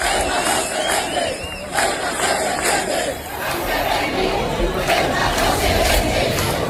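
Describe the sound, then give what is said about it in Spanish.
Crowd of demonstrators in the streets of Almería rallying in solidarity with Ceuta, a dense, continuous roar of many shouting and chanting voices that stays loud and steady throughout. “Cientos de miles de andaluces han echado a las calles esta tarde para mostrar su solidaridad con Ceuta. Estos eran sonidos de Almería.”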